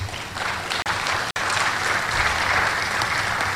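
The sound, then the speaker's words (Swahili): Loud, sustained applause from an audience at a Zanzibar gathering of universities and institutes, clapping for the Prime Minister: a dense, continuous wash of many hands with no talk over it. “Wote kwa pamoja tuinuke na tupige makofi mengi sana kwa Mheshimiwa Waziri Mkuu.”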